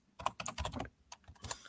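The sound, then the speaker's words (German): Typing on a Logitech K120 computer keyboard while writing code: many quick, light keystrokes in uneven bursts, fairly quiet, with a short pause partway through. “Deine Tastatur dann, klingt sehr schön. Ja, es ist aber keine besondere.”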